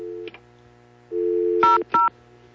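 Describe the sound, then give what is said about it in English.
Two short touch-tone beeps as a telephone keypad dials 00, following a steady hum of dial tone, each keypress a crisp dual-pitched chirp in quick succession. “Try dialing 00 and see if they can help you connect.”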